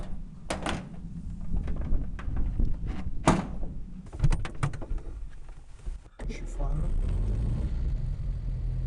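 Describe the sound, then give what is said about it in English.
A historic car at an open-air museum: several sharp knocks and thuds, one of them the bonnet being shut, while people talk. The engine then starts and settles into a steady, low rumbling idle for the last few seconds. “Let's shut the bonnet. And we'll go for a ride. Start her up.”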